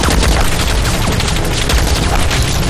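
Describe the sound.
Dense, rapid heavy gunfire from an anti-aircraft machine gun fired horizontally by South Korean troops: loud, unbroken bursts of cracks and booms with no pause and no voices.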